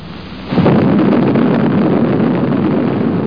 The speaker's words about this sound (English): let's take a few minutes right now and get acquainted with an A-bomb. Meet Test Able.